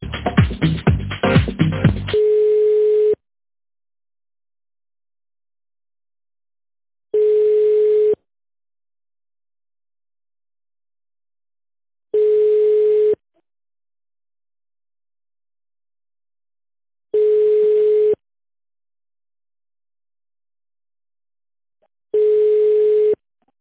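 A telephone line tone: a steady single-pitch beep that follows a short burst of noisy sound, then repeats as about one-second beeps at even, widely spaced intervals with silence between them.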